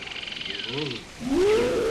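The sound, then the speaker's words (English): A tiger roaring at night, a low tonal rising growl that swells near the end, over a pulsing chorus of frogs croaking and a high steady insect-like whine. “That was a tiger, Mummy.”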